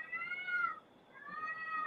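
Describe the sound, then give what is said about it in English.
A cat meowing: two drawn-out, tonal meows separated by a short pause, set against a low background noise. “You got cats out there?”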